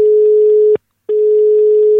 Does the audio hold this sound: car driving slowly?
no